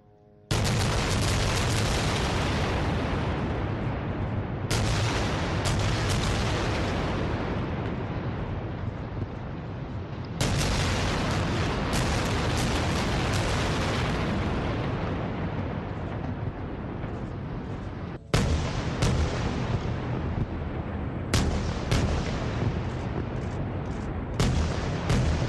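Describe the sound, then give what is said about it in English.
A rocket barrage fired into Israeli territory during fighting between Israel and Hamas: loud, roaring booms that start abruptly, rumble on for several seconds and fade, repeated several times, with a few sharper cracks near the end and wind buffeting throughout. “That's the sound of a rocket barrage into Israeli territory.”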